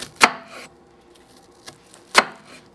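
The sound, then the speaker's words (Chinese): A knife chops down through an onion on a cutting board with vertical cuts from top to bottom. Two sharp, crisp strikes land a couple of seconds apart, with a fainter tap between them. “你再把你的洋葱跟你刚刚切的那个角度呢一样垂直九十度，然后从上往下切，切。”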